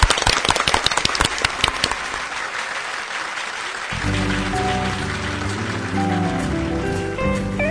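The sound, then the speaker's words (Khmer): Audience applause for a volunteer at a gathering: dense, loud clapping for about two seconds that thins out, then music with steady tones comes in and carries on to the end. “សូមផ្ទះដៃឲ្យបងប្រុសមួយផង”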